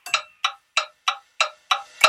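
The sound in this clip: A clock timer counts down during a quiz game with seven crisp, evenly spaced ticks, sharp and bright, each one separated by a short silence.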